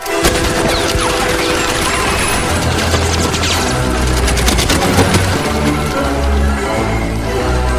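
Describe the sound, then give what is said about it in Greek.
Heavy gunfire from a film scene in which Nazi soldiers shoot through the floor of a farmhouse: a dense, loud, relentless volley of shots with crashing impacts that never lets up. “Αν θυμάστε την ταινία, ναζιστές στρατιώτες ανοίγουν πυρ στο δάπεδο μιας αγροτικής κατοικίας όπου κρύβεται μια οικογένεια Εβραίων, η οικογένεια Ντρέιφους.”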